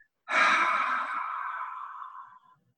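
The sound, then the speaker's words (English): A single long, airy exhale out of the mouth, as if fogging up a bathroom mirror after a gentle breath in, starts strongly and then fades steadily over about two seconds. “take a gentle inhale in through the nose. And I want you to imagine you're in the bathroom and you're fogging up the mirror as you exhale out of your mouth.”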